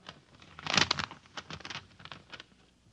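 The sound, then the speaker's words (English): Paper tearing and crinkling as an envelope is torn open, with a dense burst of rustle around the first second followed by several smaller, quieter crinkles that fade out. “Now I open the envelope.”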